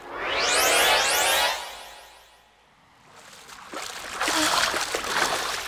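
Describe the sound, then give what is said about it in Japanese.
Oars splash as a group rows a small boat toward an island shore, a loud rushing swash fading into a brief lull before choppier splashes return. “さあ船をみんなで漕いで上陸するわよ。”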